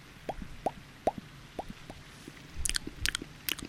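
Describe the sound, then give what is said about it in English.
Close mouth noises imitate eating: a few evenly spaced wet clicks and smacks give way to a denser burst of crunchy, crackling chewing sounds, with no talking. “I know how much you like it when I make those weird noises in your ears.”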